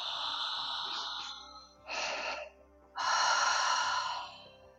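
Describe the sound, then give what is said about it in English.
Slow, deep breaths taken during a breathing exercise, made as an ocean-like throat hiss. Three long, airy breaths come with short gaps between them, and the last breath is the longest and loudest. “Slowly inhale from your tailbone into the crown of your head, and then exhale.”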